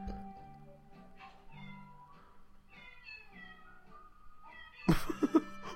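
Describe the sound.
Cats meowing in a recording: a steady run of pitched mewing calls strung together like a tune, ending in a louder burst of several sharp meows.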